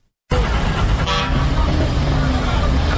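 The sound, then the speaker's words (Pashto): Car horn toots amid the steady roar of traffic at a busy passenger car station in Kandahar, with one short honk rising briefly above continuous engine and road noise while voices murmur in the background. “دا په کندهار کې د کابل موټرونو اډه ده چې لدې ځای هر ورځ زرګونه مسافر په کوچنی او غټو موټرونو کې کابل ته تګ راتګ کوي.”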